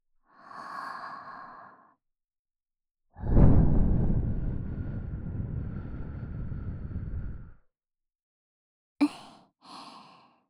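Soft breath is blown into the right ear during an ear-cleaning session. A short gentle exhale comes first, then a long steady airy blow lasting about four seconds, and finally two brief puffs.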